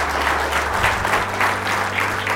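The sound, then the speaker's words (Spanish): Audience applause at a church sermon: steady, dense clapping that stays at an even level from start to end, with no voices over it. “Denle un aplauso, Señor.”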